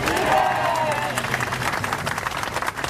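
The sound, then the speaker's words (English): Tanítanék movement protest crowd in Budapest applauding and cheering, a steady dense patter of clapping with scattered shouts throughout. “what you're hearing right now is the Tanítanék movement protesting in Budapest on June 11th.”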